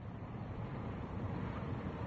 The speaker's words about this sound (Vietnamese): Tự dưng gió từ đâu kéo qua, thổi tung hai cánh cổng tre, phát ra tiếng kêu cọt kẹt đến điếng người.